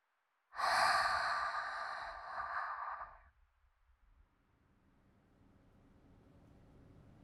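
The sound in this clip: A slow exhale during a breathing-meditation relaxation exercise: one long, breathy, airy outbreath lasting a few seconds. It fades into a faint, quiet hiss.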